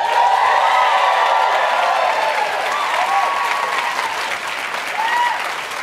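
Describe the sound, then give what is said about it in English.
A show audience claps and cheers for two guests. The applause is full and loud with some whoops mixed in, then eases off slightly over a few seconds. “Give it up for Roy and Michael, everybody.”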